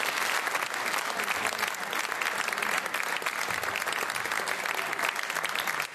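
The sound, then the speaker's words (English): Sustained applause from an audience welcoming Dennis Prager to a Socrates in the City event: dense, steady clapping that holds at an even, loud level for the full six seconds. “Please join me in welcoming Dennis Prager to Socrates in the City.”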